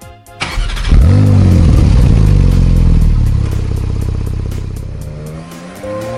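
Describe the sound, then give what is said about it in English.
A 2017 Porsche 911S Cabriolet engine fires up with a sharp burst and revs loudly. Its harmonics climb and drop back, then settle into a steady rumbling idle that slowly quietens toward the end. “那么今天呢，我们就来听一听这款保时捷911系列是一款什么样的车。”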